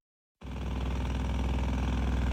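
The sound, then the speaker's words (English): Construction machinery runs at a building site where a crew is paving ground for a new building. A low engine drone starts abruptly after a moment of silence and then holds steady. “Jackhammers pound away and tractors back up as a construction crew paves the way for a new building near the VA clinic.”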